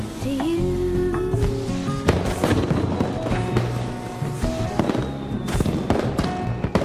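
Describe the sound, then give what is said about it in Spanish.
Fireworks exploding at night: a run of sharp cracking bursts scattered over a dense, continuous rumbling bed, with several louder blasts standing out. “Los fuegos explotan iluminando la noche.”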